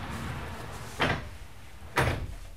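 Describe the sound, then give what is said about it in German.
A sliding door being opened at a building physics institute, heard as two short scraping, rolling bursts about a second apart over a steady background noise. “Der Bauphysiker öffnet eine Schiebetür und zieht die Abdeckung von einem riesigen runden Spiegel.”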